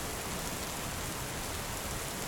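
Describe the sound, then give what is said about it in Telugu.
Heavy rain falls at night over a flooded village, an even, unbroken hiss of water that fills a short stretch with no other sound. “వర్షం తగ్గే సూచనలేవీ లేవు ఊరంతా మడిగింది”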